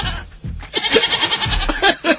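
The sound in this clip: Goat bleating comes as a loud run of short, rough, nasal cries in quick succession, several overlapping bursts within a couple of seconds.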